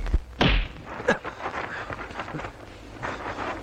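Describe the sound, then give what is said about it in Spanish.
A punch to the face lands with a heavy, dull thud during a fistfight in a 1973 western film, followed by a second, smaller impact over a low background rumble. “Al día siguiente, Lane da un puñetazo en la cara a Calhoun.”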